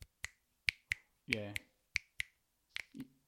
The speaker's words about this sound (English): the reason why you're doing it wrong is because the snap comes from when your finger hits your palm bit.